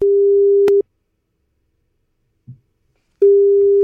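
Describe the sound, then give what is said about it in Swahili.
A telephone line tone sounds as a radio host places a call to a listener: a steady, loud low tone cuts off after under a second, a faint click follows in the silence, and the same tone then resumes. “Wacha tumpigie simu tusikie.”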